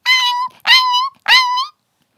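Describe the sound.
A dog's whimpering: three drawn-out, high-pitched, tonal cries of similar length, each separated by a brief gap, with nothing else heard.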